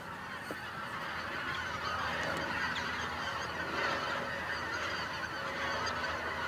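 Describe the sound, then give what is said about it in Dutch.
A large flock of geese honks continuously, many overlapping calls forming a steady, dense chorus that holds at an even level throughout. “Nou, vogels genoeg, hè? Kijk, het komt weer. Heel veel, ja. Allemaal ganzen.”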